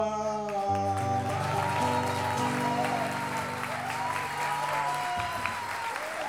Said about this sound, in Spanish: Aplauso a Rodrigo Núñez, les pide Luciano